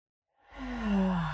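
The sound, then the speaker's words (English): A single deep breath is drawn in through the nose during a guided relaxation exercise, a soft airy rush that swells quickly and then holds steady for about a second, with no talk. “So let's inhale through our nose and we're going to hold it a few seconds. Then we're going to inhale. Here we go. In through the nose.”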